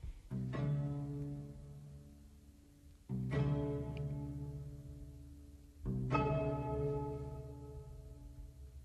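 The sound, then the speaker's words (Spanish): String instruments imitate the ringing of church bells, with three strong, resonant strokes spaced about three seconds apart, each ringing out and slowly decaying before the next. “es está pasando por una iglesia y él imita el sonido del tañer de las campanas y lo hace precisamente con los instrumentos de cuerda.”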